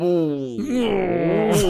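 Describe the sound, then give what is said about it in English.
A drawn-out vocal groan of mock disapproval at a pun, loud and sustained, its pitch dropping partway through before ending with a short breathy hiss. “Groaning, pretending I didn't love it, but knowing I'm going to use it later.”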